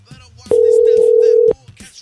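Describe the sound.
A single loud, steady telephone tone lasting about one second while a call is being placed, with brief voices talking just before and after it.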